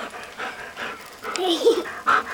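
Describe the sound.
A dog panting in quick, breathy, uneven puffs, fairly soft, with a little whimpering and a voice faintly mixed in.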